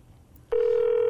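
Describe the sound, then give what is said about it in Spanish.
A telephone call being dialed and ringing: after a brief quiet moment, a steady, mid-pitched electronic phone tone begins abruptly and holds without a break. “Pues lo marcamos y adelante. No sé ni quién nos va a coger.”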